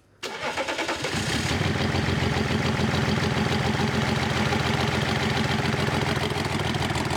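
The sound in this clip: Car engine starting with the cylinder 3 ignition cables disconnected: a short crank catches quickly, then the motor settles into a loud, steady idle that runs on evenly for several seconds.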